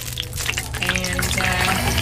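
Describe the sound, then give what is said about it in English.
Donuts frying in hot oil in a donut machine: a steady, loud bubbling sizzle with scattered popping, over a constant low mechanical hum. “there's also a donut machine. We make a batter and basically just drop out the donuts into the hot oil.”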